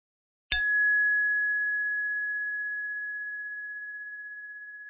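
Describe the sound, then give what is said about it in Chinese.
A meditation bell is struck once, giving a clear, pure, high ring that fades slowly and evenly over several seconds against silence. “继续关注呼吸，直到听到铃响。”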